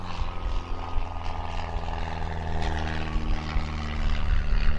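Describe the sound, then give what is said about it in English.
An aircraft flying overhead makes a continuous droning engine hum with steady harmonic tones. The sound grows gradually louder toward the end. “So, hey, another aircraft.”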